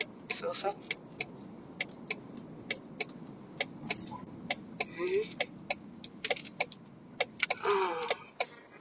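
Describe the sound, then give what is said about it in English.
A car drives along a city street in Los Angeles: a steady low road rumble runs beneath people talking, with many sharp ticking clicks at a fairly regular pace. “I'm driving LA again.”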